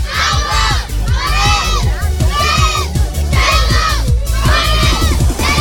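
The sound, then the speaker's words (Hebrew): A crowd shouts as loudly as it can in unison during a counting contest for a prize at a live event. The loud, raw voices rise in repeated bursts about once a second and never drop to silence. “היה ולא הצליח להגיע, אנחנו ניתן את הפרס למי שצועק הכי חזק.”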